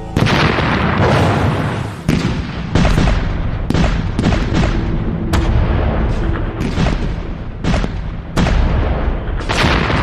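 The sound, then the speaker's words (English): Artillery fire pounds German defenses along the St Quentin Canal, shells bursting in a relentless barrage: many sharp, loud blasts fall one after another over a continuous heavy rumble, with no break across the whole stretch. “But Monash's powerful artillery is pulverizing German defenses right along the San Quentin Canal. Every kilometer is hit with 250 shells.”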